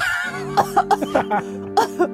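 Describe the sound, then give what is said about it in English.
A voice imitates a woman coughing and sputtering up water on a beach after nearly drowning: several short, rough bursts in quick succession over a steady low musical drone. “She coughs.”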